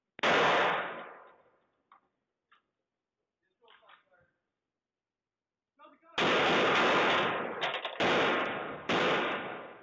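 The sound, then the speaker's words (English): Police rifle gunshots in footage of a porch shooting: one loud blast, a long pause broken by a few faint pops, then a rapid burst of several loud, overlapping shots. “Let's play that one more time so you can hear that. All right, so he's just fired into his home.”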